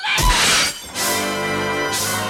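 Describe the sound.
Window glass shatters as someone jumps through it. A loud, bright crash of breaking glass is followed, after a brief dip, by more harsh, noisy crashing that lasts nearly two seconds, with no voices.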